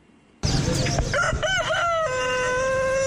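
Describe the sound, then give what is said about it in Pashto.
A rooster crows loudly at a pet animal market on College Road, where birds, chickens, dogs and pigeons are sold. The call bursts in abruptly, wavers through a few harmonic notes, then stretches into a long, steady held tone. “د پندای خار کالج روډ دا بازار د رنگارنګ مرغو، چرګانو، سپو او پکورونو کې د پالونکو زناورو ډک دی.”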